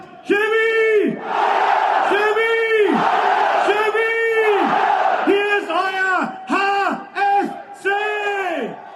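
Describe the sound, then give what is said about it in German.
A crowd gives a triple cheer to welcome a football team just promoted to the third division and three-time cup winners. Loud, drawn-out unison shouts ring out three times, followed by a string of quicker, shorter bursts. “Wir begrüßen unsere Mannschaft mit einem Dreifachen.”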